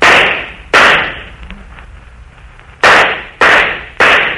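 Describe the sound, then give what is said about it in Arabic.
Gunfire as guards shoot: five loud, sharp cracks, each with a brief decaying tail. Two come in quick succession, then after a pause of about two seconds three more follow at a steady, even pace. “حراس اضربوا فيهم نار، اطلقوا عليهم رصاص.”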